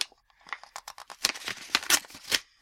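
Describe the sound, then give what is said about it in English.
Paper tears and crinkles as a Christmas card envelope from Ireland is opened by hand. Many short, irregular rustling bursts grow louder toward the middle, then fade. “I have a Christmas card from Ireland, which I was going to open on the air here.”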